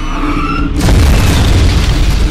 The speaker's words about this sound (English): As Hellcats scream down upon her, her magazine explodes into a massive fireball,